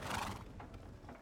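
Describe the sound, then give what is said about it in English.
Hooves clip-clop faintly and steadily from a horse being ridden alongside a caravan, a soft, uneven patter under low background noise. “I just can't believe you rode your horse all the way to the front of the caravan to be next to me.”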